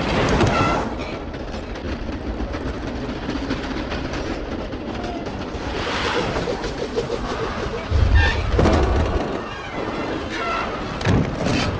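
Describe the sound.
An express train runs on rails with a steady, loud rumbling clatter, a continuous rhythmic clickety-clack broken by a few heavier thumps.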